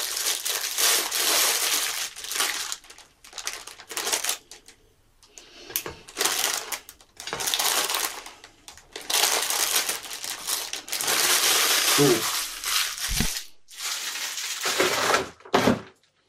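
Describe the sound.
Crinkling plastic packaging as hot dog bread rolls are unpacked, with many uneven bursts of rustling and crackling broken by short pauses and a few dull knocks near the end.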